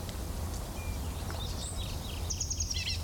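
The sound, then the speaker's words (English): Bird call notes from a single bird: a few short, thin, high chirps, mostly near the end, over a steady low rumble of background noise. “Call notes of the same bird.”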